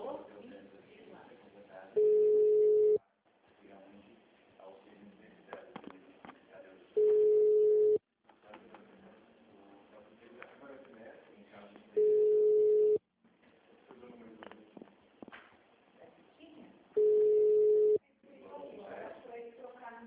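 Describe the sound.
Telephone line tones during a repeated call: four long, steady beeps spaced about five seconds apart. Each beep is clear and evenly pitched, and muffled voices can be heard between them.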